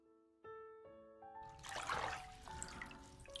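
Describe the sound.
Bath water runs into a tub while its temperature is tested, a soft steady rushing splash that comes in after a brief gentle musical phrase. The quiet tune carries on faintly beneath the water.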